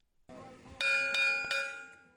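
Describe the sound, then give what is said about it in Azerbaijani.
A bell rings for a National Performing Arts Day ceremony in the Aras Free Zone. It is struck three times in steady succession, and each bright metallic strike rings on into a sustained, shimmering tone over a faint background murmur. “Dünya Teatr Günü ilə eyni vaxtda Araz Azad bölgəsində Milli Səhnə Sənətləri Günü zəngi çalındı.”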